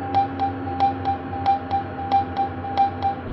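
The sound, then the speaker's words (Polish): A phone dials a call: a quick, evenly spaced series of short electronic beeps with clicky onsets, sounding over a low steady hum. “Wywołaj Oskar.”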